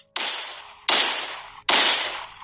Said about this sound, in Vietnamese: Nó cứ bắn liên hồi.